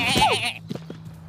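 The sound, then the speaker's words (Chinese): A sheep bleats once: a loud, wavering, nasal cry lasting about half a second, followed by a few faint low knocks over a quiet steady hum. “放下！你是一只非常讨厌的绵羊。”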